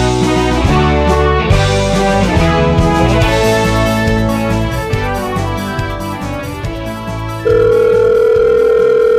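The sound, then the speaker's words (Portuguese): A steady, unbroken telephone dial tone sounds as a phone call is being placed. It comes in loudly for roughly the last two seconds, after a long stretch of dense, layered tonal sound. “Deixa eu pegar o número aqui, vamos ligar”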